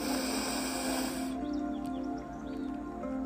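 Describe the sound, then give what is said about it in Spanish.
A slow, deep inhalation during a guided breathing meditation. A soft, breathy hiss lasts just over a second and then gives way to quiet. “Permítete ahora inhalar.”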